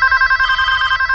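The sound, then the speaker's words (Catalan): Telephone ringing, used in an advertisement: a steady, bright electronic ring with a rapid pulsing warble that holds at an even level for the whole short stretch, with no voices. “Si vols que et soni el telèfon, fes publicitat online, perquè així rebràs fins al triple de trucades.”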